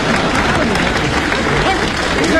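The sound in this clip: Loud, continuous applause from an audience welcoming contestants as they are introduced at a competition, a thick, even roar of clapping that holds steady throughout.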